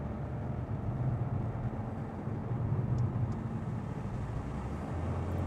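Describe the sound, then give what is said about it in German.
Car driving on a road at about 70 to 75 km/h while changing lanes: a faint, steady low rumble of engine and road noise, even in level throughout with no distinct events. “Wir fahren jetzt kurz 70, 75, wechseln wieder die Fahrspur, bisschen ruhiger.”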